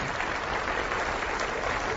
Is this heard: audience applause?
yes